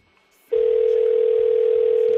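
Telephone ringing for an incoming call from abroad: after a brief quiet moment, a single loud, steady, even-pitched tone begins and holds unbroken to the end.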